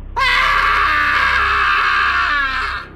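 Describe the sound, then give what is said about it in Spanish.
An inhuman, blood-curdling shriek from an old man by a ruined, abandoned pier in a horror tale: one loud, sustained high wail lasting nearly three seconds, sharp at the onset and tapering at the end over a low drone. “el loco susurro del viejo se convirtió en un alarido inhumano que helaba la sangre.”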